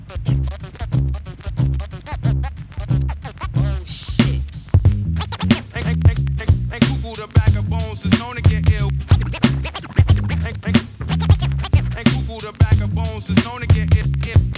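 A DJ scratches a vinyl record on a turntable with fast fader cuts. Rapid rhythmic scratches ride over a steady, loud hip-hop beat with regular low drum pulses.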